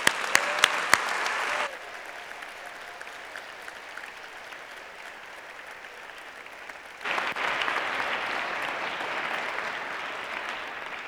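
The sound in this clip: Chapel applause welcomes a reverend as keynote speaker. A few sharp claps lead into a softer patter of applause, which then swells clearly louder partway through and keeps going steadily to the end.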